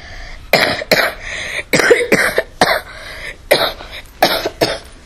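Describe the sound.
An old, very small, wrinkled man coughing in many harsh, rough bursts, loud and uneven in rhythm and clustered in quick pairs, with no talk.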